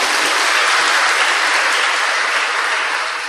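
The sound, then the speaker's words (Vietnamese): Dense, steady audience applause fills a hall during a Buddhist monk's talk. Many hands clap together in a loud, continuous wash that eases slightly at the very end. “cho một tràng pháo tay nữa”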